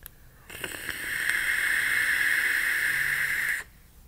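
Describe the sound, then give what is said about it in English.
A sub-ohm vape tank that gurgles is drawn on, giving a steady airy hiss with a whistling tone that starts abruptly, holds for about three seconds and cuts off sharply. “The Gujer sub-ohm tank. Right now it's gurgly, but we'll see where that takes us in the future.”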